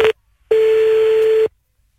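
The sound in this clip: A telephone line tone plays while calling back: a short burst, a pause, then one steady tone lasting about a second, heard alone.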